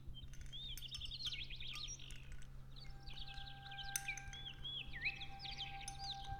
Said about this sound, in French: Chez elle, il y a un canari, pas un canari de concours. Il chante juste pour elle.